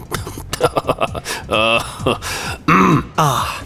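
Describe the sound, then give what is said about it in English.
Throat clearing from a man: a few rough, raspy bursts with groan-like voiced edges, loud and close, separated by short pauses. “Sorry, got a little catch in my throat.”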